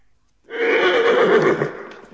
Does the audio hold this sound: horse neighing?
yes